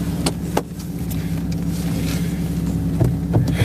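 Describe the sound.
A car sets off and drives on a cold day, its engine giving a steady low hum with a few sharp clicks and knocks over the top.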